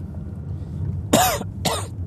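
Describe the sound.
Two short, sharp coughs after a bit of saliva is inhaled into the back of the throat, the bursts following each other closely over a steady low background noise.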